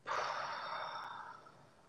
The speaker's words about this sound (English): And exhale. Inhale. And exhale.